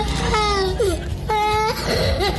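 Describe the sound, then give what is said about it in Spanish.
Children crying on request: two drawn-out, high wailing cries separated by a short pause, loud over a noisy background. “Pues los niños que quieran pueden hacerlo ya. Pueden llorar.”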